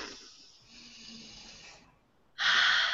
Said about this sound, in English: You give yourself a stretch, take a deep breath in,